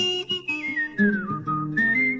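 A person whistles a tune: clear, bright notes stepping through a melody, drifting down in pitch over several short phrases before jumping back up near the end, with no talk.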